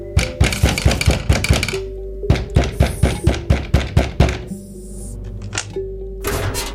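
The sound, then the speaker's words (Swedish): Knocking on the door of a rented room, where a landlord arrives with two guards: many heavy, rapid thuds in quick bursts, with a short pause between groups and a faint low hum underneath. “Två dagar senare ligger du på sängen i rummet du hyr när det knackar på dörren.”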